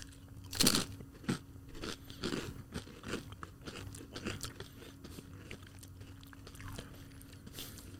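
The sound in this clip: Crunchy chewing of a bite of salmon spread topped with dill: one loud crisp crunch near the start, then many smaller crunching and chewing sounds at an uneven rhythm, with no talk.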